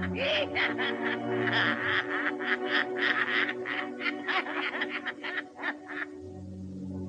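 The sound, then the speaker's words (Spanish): A witch's cackle: a long run of rapid, harsh, high-pitched bursts in an uneven rhythm over a steady low hum, stopping abruptly near the end. “Para envejecer mi voz, el cacareo de una bruja.”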